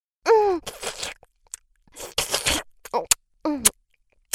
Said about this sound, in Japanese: なんか、グミ食べてるみたいな感触。ほーら、食べちゃうよ。